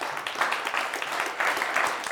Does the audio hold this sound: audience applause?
yes